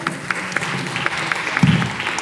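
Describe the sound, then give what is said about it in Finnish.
A small round of applause at a book presentation: a few distinct claps stand out over a soft, steady patter of hands, kept modest and brief. “Olisiko tämä niin iso historiallinen tilaisuus, että olisi pienet aplodit saada?”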